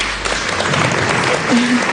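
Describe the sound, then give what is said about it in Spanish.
Audience applause breaks into a formal speech during a royal family toast: dense, steady clapping that fills the whole two seconds at an even loudness, with a brief tonal hint of a voice near the end. “Interrumpen a Leonor con aplausos.”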